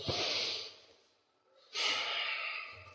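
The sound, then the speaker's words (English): A big breath taken together as a group: a long airy inhale, a short quiet pause, then an equally long breathy release, with no talk over it. “I want us just to think for a minute, all right? So I'll take a big breath together”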